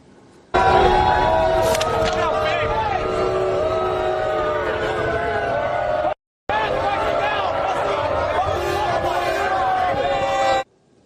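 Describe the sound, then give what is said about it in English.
Knicks fans jeer President Donald Trump as he arrives at the Knicks-Spurs NBA Finals game. The crowd noise is loud and dense with shouting voices, holds steady, breaks off briefly partway through, then resumes. “Do you want to see the big, warm New York welcome that actual Knicks fans gave him when he arrived at the venue tonight?”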